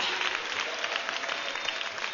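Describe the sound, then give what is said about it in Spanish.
Applause from a church audience during a worship service: dense, steady clapping that holds at an even level for the whole moment, with no voices standing out. “Démosle un aplauso al Señor, hermana, hermano.”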